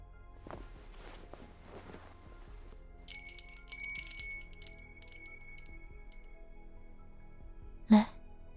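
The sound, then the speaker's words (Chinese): A small bell jingles as accompaniment in a cluster of light, bright, high rings that lasts about two seconds. The sound is fairly faint and no one speaks over it. “不如用这铃铛来伴奏吧。”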